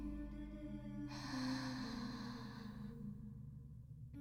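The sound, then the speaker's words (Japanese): A deep, slow inhale during a guided breathing exercise: one soft, airy breath lasting about two seconds, heard over a steady low tonal drone. “もう一度大きく息を吸って、”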